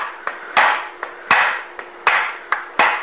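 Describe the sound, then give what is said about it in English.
A chisel tapping at a stuck part: about eight sharp hits in a steady rhythm, each followed by a short rasping ring. Lighter and heavier strikes alternate, with no talk. “so I'm going to kind of tap at it here.”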